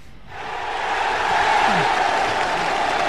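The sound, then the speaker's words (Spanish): Audience applause in a studio: a dense, continuous roar of many hands that swells in after a brief quiet start and then holds steady and full. “¿Le aplaudimos o le...? Sí, sí, venga, sí, vamos a aplaudirle.”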